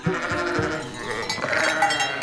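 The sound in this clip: A crowd of goats jostles after one another, bleating over a busy background. The bleats are wavering and overlap.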